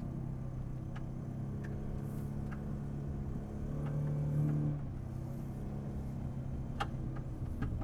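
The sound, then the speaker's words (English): A car engine in first gear climbs a snowy road with a low, steady rumble. It swells into a louder, humming strain midway before settling back, and faint clicks and knocks scatter across the drone. “Wow, some of this road is still just snow. So I'm shifted back into first gear.”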